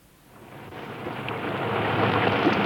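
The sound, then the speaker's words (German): Rain begins as a thunderstorm arrives, swelling from a soft hiss into a dense, broad rush that grows steadily louder throughout, with no voices. “Da, sehen Sie, es fängt an zu regnen.”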